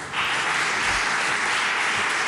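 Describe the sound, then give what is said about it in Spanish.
Applause from the People's Party benches in the Murcia regional parliament after a censure motion is rejected: dense, steady clapping that holds at an even loudness for about two seconds. “Los aplausos del Partido Popular, de la bancada del Partido Popular.”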